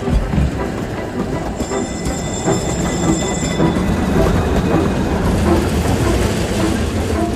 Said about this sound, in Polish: Tramwaj pierwszy.